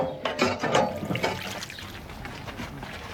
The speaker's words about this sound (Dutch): Water pompen. Waarvoor? Voor de kippen.